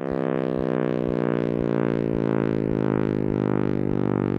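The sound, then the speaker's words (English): Simulated sound of the universe expanding after the Big Bang, made by a University of Washington physics professor emeritus: a dense, steady droning hum whose layered tones sink slowly in pitch, with soft regular pulses beneath. “That noise is a simulation by University of Washington physics professor emeritus John Kramer of what the universe may have sounded like as it expanded after the Big Bang.”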